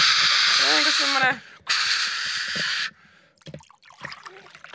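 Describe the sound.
A voice imitates honey-marinated chicken sizzling in a frying pan with two long, loud, breathy hissing bursts separated by a short gap; the first carries voiced tones. Quieter scattered mouth sounds follow.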